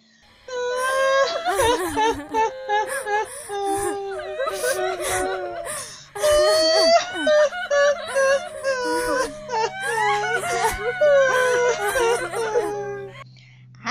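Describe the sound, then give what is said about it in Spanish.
Voices imitate the wailing and weeping of hired mourners (plañideras), with long, high, quavering sobs and moans in several bursts. Snickers of laughter slip in between the cries. “ayúdame a llorar como las plañideras”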